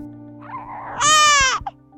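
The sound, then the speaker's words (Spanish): A newborn baby boy cries, with soft fussing that builds into one loud, high wail, then trails off into a few brief whimpers. “Ya, mi bebé. Acá está mamá. Ya no llores. Acá estoy yo.”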